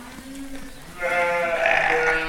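Ewes bleat in a lambing barn where some are about to give birth, a loud, continuous chorus of overlapping calls. Lower bleats at the start give way to higher, louder ones.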